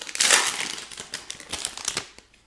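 A foil pack of trading cards is opened with a continuous crinkling and crackling of the wrapper, loud at first and settling into scattered rustles.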